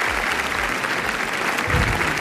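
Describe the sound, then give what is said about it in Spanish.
Applause at a film premiere at the Cannes Film Festival: dense, steady clapping from many hands, filling the whole short stretch at an even, fairly loud level. “volvemos otra vez al Festival de Cannes, donde Pedro Almodóvar ha presentado su película Amarga Navidad y después ha recibido 8 minutos de aplausos.”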